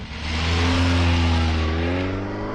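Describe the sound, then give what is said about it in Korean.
A passenger car drives along a street where people are passing, its engine a loud, steady drone that climbs in pitch as it accelerates, then eases slightly. “사람들이 오가는 길거리로 선성상이 운전하는 승용차가 달리고 있다.”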